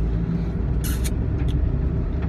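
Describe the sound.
Car driving on the road, heard as a steady, loud low rumble of engine and tyre noise with a few brief hissing bursts over it and no talk.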